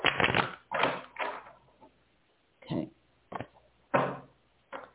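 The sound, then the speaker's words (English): A deck of tarot cards being cut and handled, heard as a series of short, dry papery bursts with brief pauses between them, fairly faint and with no talk over them. “I've cut the cards. 1, 2, 3. First card that's coming out of the deck is a 3 of Pentacles.”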